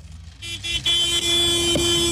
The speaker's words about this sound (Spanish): Así como mi compa, accionando el claxon, compadre, pítale, pítale.